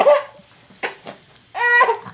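An infant fusses and cries in a few short, strained whimpering bursts separated by brief quiet gaps, the last cry the longest and fullest.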